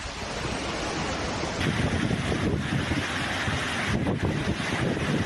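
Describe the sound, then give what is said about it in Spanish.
Storm floodwaters rushing through a town in Albacete during a cut-off low storm, a dense, continuous roar of turbulent water that swells slightly midway and stays loud throughout, with no voices. “Este es el sonido de la Dana en Le Tour a su paso por Albacete,”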